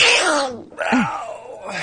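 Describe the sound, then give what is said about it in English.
A single real sneeze: a loud, noisy burst that cuts off briefly, then gives way to a short voiced, groan-like tail. “That was a real sneeze, by the way, people.”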